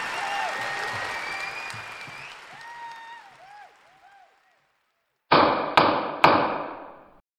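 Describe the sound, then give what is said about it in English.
A gavel strikes three sharp, loud knocks in quick succession near the end, after a quieter stretch of fading tonal sounds and a moment of silence. “This is the sound of a gavel.”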